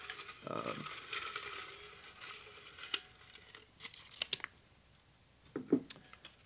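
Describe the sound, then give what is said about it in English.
Paper slips rustle and crinkle as a question is drawn from a question jar: soft crumpling with a few sharp crackles and clicks, fairly quiet throughout. “Today's question jar, or today's question out of the question jar. It's going to do a random draw here.”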